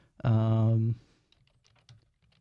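Quiet clicks of typing on a computer keyboard to update a playlist follow a short, steady humming tone, the keystrokes faint and irregular.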